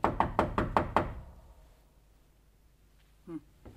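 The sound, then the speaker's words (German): Knocking on a door in a building corridor: five loud, sharp raps in a quick, even rhythm, then near silence with a faint brief sound near the end. “Klopfen wir nochmal.”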